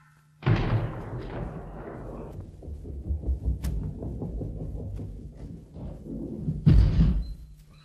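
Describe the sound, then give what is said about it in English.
Bowling ball at a neighborhood bowling alley on a gutter shot: a heavy thud as it is released, a long low rolling rumble with small knocks, then a louder thump near the end. “By way of demonstration, let's visit the neighborhood bowling alley. Okay, fellas, set them up, please. Look out, everybody, here we go.”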